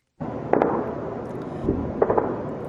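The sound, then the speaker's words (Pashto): Heavy weapons gunfire during fighting in the city of Ramadi, Iraq: a few sharp, loud bursts stand out over continuous rumbling, crackling noise that runs through the whole recording. “دا د ټوپکو تندو وسلو د ډزو اوازونه دي چې د جمعې په ورځ په رمادي کې د جګړو په مهال اورېدل کېدل.”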